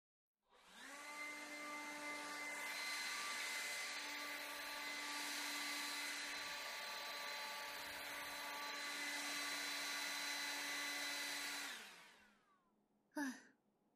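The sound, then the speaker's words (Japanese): A hair dryer blows while drying hair, a loud, steady whirring hum that runs for about eleven seconds, then cuts off, followed by one brief sound. “これで乾いたよ。なんだかあんたの髪乾かしてあげるのも久々だね。”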